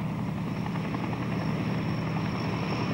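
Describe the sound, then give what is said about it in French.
Continuous loud roar of a fully loaded Globemaster military transport plane landing at San Isidro airfield and taxiing with engines running, a dense, unbroken propeller drone with a thin high whine on top. “Toutes les deux minutes, un Globemaster atterrit, chargé au maximum. Il vient se ranger sur une piste de dégagement sans arrêter ses moteurs.”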